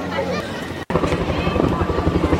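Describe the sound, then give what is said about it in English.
Chinook helicopter flies past at an air display, carrying a Jeep and a trailer slung beneath it. A steady, rapid rotor thumping runs under a voice talking. “And here comes a Chinook carrying nothing less than a Jeep underneath it.”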